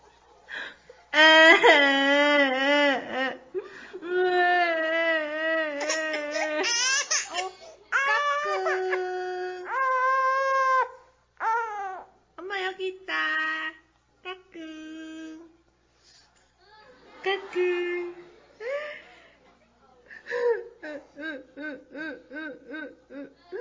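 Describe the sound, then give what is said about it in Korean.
A baby cries, whimpers and laughs in wavering, high-pitched bursts alongside its mother, the sobs and giggles alternating with short pauses throughout. “엄마가 우는 거에 따라 울고 웃는 것에 따라 웃는데 한번 보실까요?”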